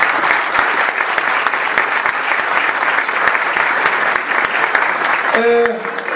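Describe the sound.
Audience applause at a live event in Isfahan, given for the staff and organisers: dense, steady clapping that stays loud and even throughout.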